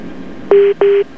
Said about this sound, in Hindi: हमको लगता है कि हमारे पास पहला फ़ोन आ चुका है, देखते हैं कौन हमारे साथ।